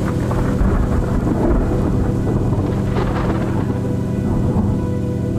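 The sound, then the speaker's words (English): A storm with strong winds and thunder produces a continuous heavy, low rumble with a wash of rain and wind that swells briefly near the middle, steady and loud throughout with no voices. “Hurucán, the god of chaos and strong winds, brought a storm and swept the young man away.”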